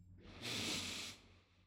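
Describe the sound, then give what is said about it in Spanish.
A single audible breath drawn in, heard as a soft, airy hiss that swells for about a second and then fades. It stands alone with no talk. “Yo respiro hacia adentro”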